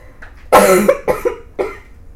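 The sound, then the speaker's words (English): Harsh, chesty coughing from a person with a bad cough of three weeks: a loud first burst followed by a few shorter, rasping coughs in quick, uneven succession. “please accept my apology because I have had a very bad cough for 3 weeks.”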